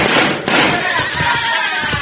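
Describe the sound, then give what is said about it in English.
Gunshots from a six-gun revolver fired at a weather vane atop a church: a few sharp, hard cracks and thumps over a steady, noisy background. “Watch me make a spin from the bullets of this six gun.”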